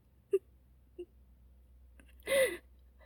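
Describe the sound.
A woman crying in grief: two short hiccuping sobs, then a longer, louder wailing moan near the end, with quiet pauses between.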